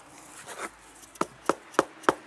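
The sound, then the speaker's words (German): A workpiece rubbed back and forth against its mating piece until it grinds: soft scraping strokes at first, then four sharp, evenly spaced grinding clicks. “Und jetzt reibe ich hin, bis er knirscht.”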